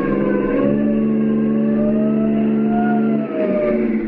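A car engine accelerates hard during a getaway, a loud, sustained whine of stacked tones that holds steady for nearly the whole stretch with no voices.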